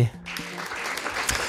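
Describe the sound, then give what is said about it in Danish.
Canned applause sound effect: a short burst of recorded crowd clapping, lasting about a second and a half as a fairly even, moderately loud patter of many hands. “Har vi noget klapsalve liggende”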